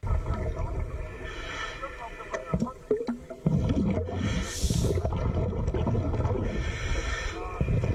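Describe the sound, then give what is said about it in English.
A person breathes underwater in a shark tank, the air rushing and bubbling in irregular surges over a low, muffled underwater rumble. One louder, hissing burst comes near the middle. “That's the sound of me underwater breathing.”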